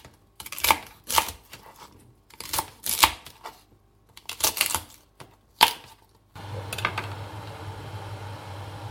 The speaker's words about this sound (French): Ensuite, on coupe les côtes en gros tronçons et on attend que l'eau soit bouillante.